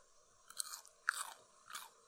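Someone bites and chews yellow bell pepper in three quiet, crisp crunches spaced evenly apart, each with a short scraping tail, with near silence between them and no talk.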